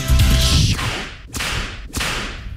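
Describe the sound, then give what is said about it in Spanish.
A whip crack sound effect: three sharp cracks, each trailing into a rushing swish, evenly spaced and loud. “A Donald Trump viene con el látigo.”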